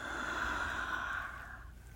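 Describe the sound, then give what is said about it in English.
One long, airy breath out during a guided breathing exercise, steady for over a second before tapering off softly. “Again. Breath in. One, two, three. And breathe out.”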